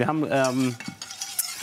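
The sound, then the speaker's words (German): Flour being stirred into foaming, lightly browned butter in a pan: a squeaky, scraping stir with a wavering tone, followed by a few light scrapes and clicks. “Ich habe hier schon mal ein bisschen Butter aufschäumen lassen und auch so ganz leicht rösten lassen. Da spricht man ja auch von Nussbutter. Und da rein habe ich jetzt das Mehl eingerührt.”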